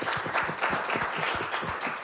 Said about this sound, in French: ça mérite bien un applaudissement.